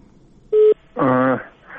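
A short steady telephone dialing beep sounds as a listener's call comes through on a call-in line. A longer buzzy, tonal connection sound follows, then a fainter trailing tone.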